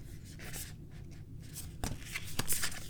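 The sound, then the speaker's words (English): Shuffling a deck of illustrated cards by hand: soft, papery rustling and riffling in irregular bursts, with a few sharper snaps toward the end. “Okay, let me go ahead and give these a good shuffle.”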